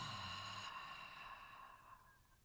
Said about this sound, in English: you're going to breathe in through the nose, but you're going to exhale out through the mouth and fog up that mirror